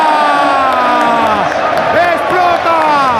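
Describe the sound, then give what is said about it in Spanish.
A stadium crowd roars at Camp Nou as Barcelona win the league in a Clásico, a dense, loud, continuous wall of cheering with an excited voice shouting over it. “¡Explota el Camp Nou! ¡Bailan los jugadores del Barcelona!”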